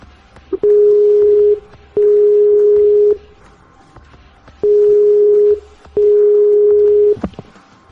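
Telephone ringback tone while placing a call: four long, steady low beeps of about a second each, grouped in two pairs with a longer pause between, ending in a short click.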